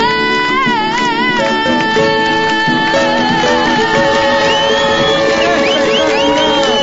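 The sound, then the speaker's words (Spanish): A crowd cheers and whoops at the Cosquín folk festival. The loud, continuous cheering mixes with sustained singing and instruments. “Espectacular, aplauso.”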